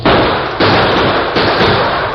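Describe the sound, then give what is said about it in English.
Gunshots in an old-time Western radio drama during a chase on horseback: a few loud blasts in quick succession, each trailing into a dense, crackling roar of noise. “That last shot hit home.”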